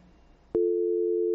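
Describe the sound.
A telephone line tone on a call-in phone line: a sharp click, then a steady, unbroken mid-pitched tone that holds loud to the end.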